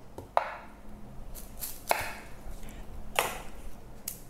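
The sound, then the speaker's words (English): Knife cutting up a red onion on a board. A few sharp, separate chops land at an irregular pace, faint and with nothing else heard. “Gonna add in an onion. So let me cut this onion up.”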